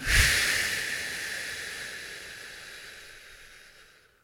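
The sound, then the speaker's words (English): A slow, deep exhale comes out as a breathy, airy hiss. It is loudest at the start and gradually fades over several seconds, with no talking. “Take in one more deep breath. And let it out.”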